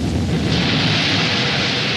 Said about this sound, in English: Black Knight, Britain's first space rocket, had its cables released and was all set for the takeoff.